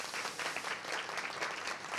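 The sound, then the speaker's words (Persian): A studio audience claps, giving a quiet, even patter of many hands that continues without a break for two seconds. “برای خودتون دست بزنین.”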